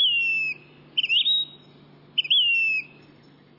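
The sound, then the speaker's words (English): Bird song attributed to a phoebe, eastern or Say's: two short, high, clear whistled phrases separated by a pause, each sliding slightly in pitch, heard alone over a faint low hum. “This month also brings phoebes. Eastern phoebes east of the Rockies. and Say's Phoebes in the west.”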